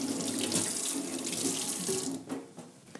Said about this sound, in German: Deswegen muss ich mir jetzt den Finger kurz abspülen.